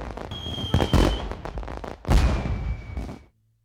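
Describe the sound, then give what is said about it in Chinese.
Whistling signal arrows thrown into the sky and bursting like firecrackers, heard as two loud crackling volleys. A thin, steady high whistle runs through each volley, and the sound then cuts off abruptly. “他就一甩手将一兜子响箭全扔上了天，瞬间天上跟放炮似的噼里啪啦炸开，五颜六色响作一团。”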